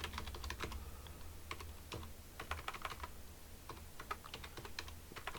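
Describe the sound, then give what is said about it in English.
Typing on a computer keyboard: many quiet, irregular key clicks in a steady stream over a low background hum, with no voices. “Click it again so I can type.”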